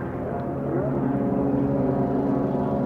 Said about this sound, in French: Un avion.